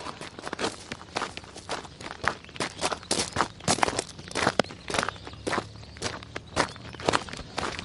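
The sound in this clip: Footsteps walk into a garden in Darling, a steady, even series of many crisp treads in a brisk walking rhythm, moderately loud and with no voices.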